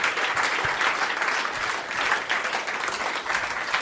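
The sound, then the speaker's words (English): Audience applause for the hosts at the end of a live comedy show, a dense, continuous wash of clapping that holds steady and strong throughout. “ladies and gentlemen, let's have a big round of applause for Chris Mish and Matt Stewart's 5 Disgusting Mysteries.”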